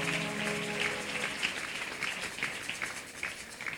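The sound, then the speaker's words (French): A church audience applauds during a service. The clapping is faint and scattered, a patter of separate claps that grows busier toward the end. “Est-ce qu'on peut acclamer le Seigneur ce matin?”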